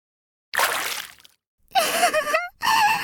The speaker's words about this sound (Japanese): お兄ちゃん、慌てすぎ。お湯がかかっただけじゃない。